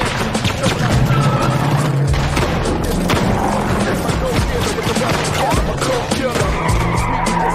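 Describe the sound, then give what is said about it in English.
A 1970s Land Cruiser SUV drives in with loud tire skidding and engine noise, a harsh, continuous rush of car sound with sharp bursts in a film scene. “A 70s Land Cruiser reaches the trio.”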